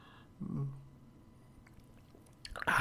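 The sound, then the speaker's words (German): Quiet sipping of hot black tea from a cup, with a soft slurp early on and a brief, louder wet sip and swallow near the end, and no talking. “Heute kein Chai-Tee, heute tatsächlich nur ein ganz entspannter schwarzer Tee. Deswegen trinken wir einen schönen Schluck und”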